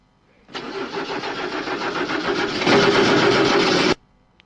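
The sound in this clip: Car engine cranking on a newly replaced starter Bendix, a rapid, steady pulsing churn that grows louder and fuller near the end before stopping abruptly.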